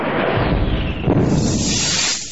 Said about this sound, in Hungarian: Ilyen szörnyű detonáció, csak valami robbanás idézhetett elő.